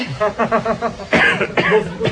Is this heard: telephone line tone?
no